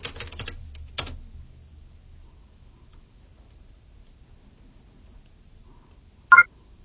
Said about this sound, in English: so we'll type that in